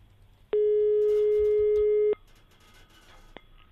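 Single steady telephone tone while placing a call, lasting about a second and a half, followed by faint background noise and a brief click.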